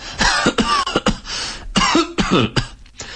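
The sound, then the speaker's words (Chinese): A department head has a coughing fit during a tense meeting: a rapid, uneven series of many harsh, throaty coughs, some short and sharp, others longer and rasping, loud and close together. “白主任咳嗽了一阵儿”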